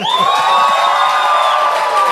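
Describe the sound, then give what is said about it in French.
An enthusiastic audience at a university event cheers loudly, with a sustained high whistle riding over the crowd noise, at a steady level for the whole moment. “Le public est enthousiaste, même le recteur de l'université a sifflé.”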